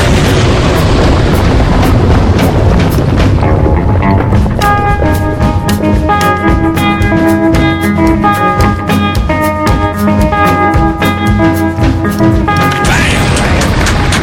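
A rocket blast-off sound effect of thrusters firing opens with a loud, dense roar. Many sharp booming, crashing hits follow over sustained ringing tones.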